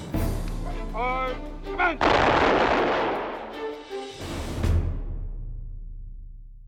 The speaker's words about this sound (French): La coutume voulait que l'on tire trois salves d'armes à feu au-dessus de la tombe.